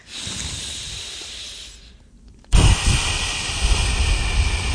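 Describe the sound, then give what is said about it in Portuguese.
Slow, deliberate breathing during a calming breathing exercise: a long, steady, airy inhale, then a louder rushing exhale, both breathy and hiss-like, with no talking. “tentando que a expiração seja um bocadinho mais longa que a inspiração. A respiração lenta está associada à ativação do sistema parassimpático, que é aquele que ajuda o organismo a sair do estado de alerta. Vamos experimentar?”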